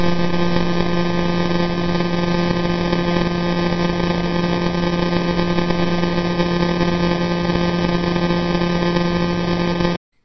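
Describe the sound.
Radio signal from the pulsar J0437 converted into sound, heard as a loud, steady buzzing tone with stacked harmonics. It stays unchanged for about ten seconds and then cuts off abruptly.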